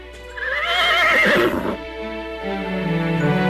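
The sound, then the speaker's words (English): A pony whinnies in a video game, a loud, high, wavering neigh that shakes in pitch and then eases into lower, softer sustained tones, with no voices. “Go, Horace, the pony, go. Go. Why is it not running? Do I need to kick it?”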